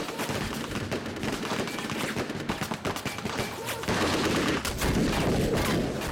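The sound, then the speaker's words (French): Rapid machine-gun fire, armor-piercing rounds riddling the first car of a train during an assault on hijackers, rattles in dense, continuous bursts that grow louder partway through. “Des mitrailleuses criblent le premier wagon de balles perforantes.”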